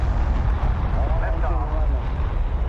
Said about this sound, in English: Ten, nine, ignition sequence starts. Six, five, four, three, two, one, zero.